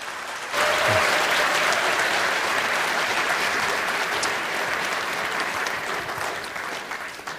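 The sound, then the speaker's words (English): Audience applause welcoming a speaker to the stage before a talk on the solar system: a sudden burst of many clapping hands that holds steady and loud, then eases slightly toward the end. “So please put your hands together and give them a warm welcome.”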